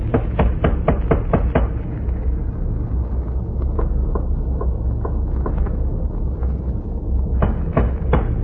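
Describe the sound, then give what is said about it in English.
Sharp taps on a ship's hatch: a quick run of several knocks, then slower, scattered taps and a final small cluster, all over a steady low rumble. “I don't hear anything. Just a moment. I'll tap on the hatch.”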